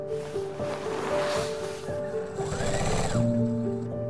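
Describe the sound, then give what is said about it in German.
A sewing machine rattles steadily as a woman feeds fabric under its needle at a dining table in a small house in rural Pembrokeshire, Wales, its continuous chatter carried over a steady motor hum. “Am Esstisch, umgeben von Kleidungsstücken, sitzt vornübergebeugt eine Frau. Sorgfältig schiebt sie den Stoff unter der ratternden Nadel einer Nähmaschine hindurch.”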